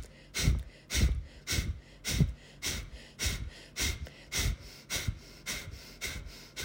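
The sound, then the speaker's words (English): Forceful breaths pushed out through the nose from the stomach with the mouth closed: many short, sharp exhales in a steady, quick rhythm of about two per second. “You breathe from your stomach, so like pressing out the air through your stomach, and you only go out through your nose.”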